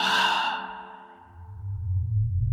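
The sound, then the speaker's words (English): A voice imitating someone breathing out right next to the ear: one long, airy exhale that starts strong and slowly fades away. “right next to my ear, I hear someone just breathe out like,”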